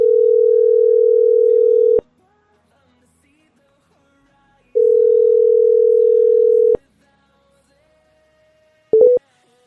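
Telephone line tones while calling a number: two long, steady mid-pitched tones of about two seconds each, separated by silence, then a quick cluster of short beeps at the end.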